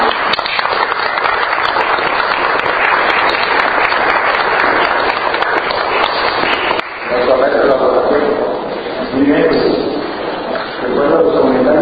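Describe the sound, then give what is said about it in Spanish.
Audience applause: loud, dense clapping from many people that holds steady for several seconds, then people talk over the thinning applause. “un aplauso para Luis.”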